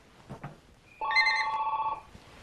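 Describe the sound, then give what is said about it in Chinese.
A telephone rings once with a warbling, trilling electronic tone lasting about a second, preceded by a few faint soft noises. “电话啊！”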